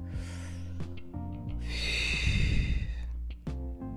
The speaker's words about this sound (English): So I'm going to take a deep breath, another deep breath.